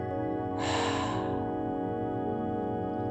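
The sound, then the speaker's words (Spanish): A single deep breath during a guided meditation for connecting with Mother Earth: a soft airy rush swells briefly over a sustained tonal music bed, then fades, leaving the drone alone. “Inhala profundo y exhala por completo.”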